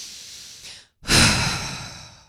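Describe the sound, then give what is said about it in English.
A person takes a deep breath: a soft, airy stretch, a brief pause, then a louder, longer breathy rush that slowly fades. “take a breath in with me, will you?”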